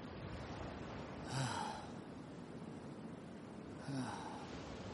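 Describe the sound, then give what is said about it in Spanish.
A person lying on a rock catching their breath after exertion: two soft, throaty gasping breaths a couple of seconds apart, faint over a steady low background hiss. “Se recuesta boca arriba sobre una roca y recupera poco a poco el aliento.”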